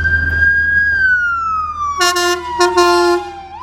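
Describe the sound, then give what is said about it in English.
An ambulance siren drives past, its loud, steady wailing tone sliding gradually lower in pitch as it goes by. A second, lower siren tone joins partway through over a low traffic rumble. “oh gosh, ambulance. But isn't it much better when we like, oh, because I said, okay, we gotta wait till this drives away.”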